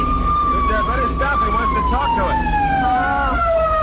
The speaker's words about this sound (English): What's that? Cops. What? A policeman's chasing us.